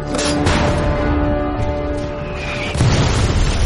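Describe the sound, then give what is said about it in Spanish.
Artillery shells exploding as they land among mountain-division soldiers, a dense, continuous roar of booms with a sharper, heavier burst near the end. “Los proyectiles sobrevuelan sus cabezas y caen entre los soldados alemanes de la división de montaña.”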